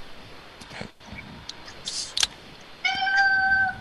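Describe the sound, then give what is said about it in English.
A cat gives one clear meow near the end, after a quiet stretch with a few faint clicks and ticks. “It's my cat.”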